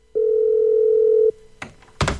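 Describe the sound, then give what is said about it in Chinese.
A telephone rings unanswered: a single steady, low ringback tone holds for about a second and then cuts off, followed by a couple of short, louder noisy bursts. “蓝青那头却再也没人接听电话”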